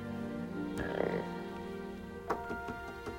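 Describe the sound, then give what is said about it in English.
A frog croaks in a clear glass tank, giving a few low, buzzy calls with sharp clicks, faint over a steady tonal hum. “Mark leans over a clear glass tank and studies his frog”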